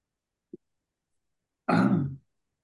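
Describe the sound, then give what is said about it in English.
A man with allergies clears his throat: one tiny click, then a single harsh, rasping throat-clearing burst of about half a second, with no talking. “I'm the guy who's been coughing and spluttering all the way through. Actually, give me a second here.”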